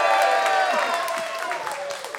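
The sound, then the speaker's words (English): Audience cheering at a live stage game event, with excited voices whooping and calling out over scattered clapping, the shouts sliding downward in pitch as they fade slightly. “Some people probably cheered for it. They don't even know what it is.”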